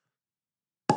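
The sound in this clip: A cork pops out of a wine bottle from Paso Robles, California: one short, sharp plop that bursts out at the very end after a stretch of silence.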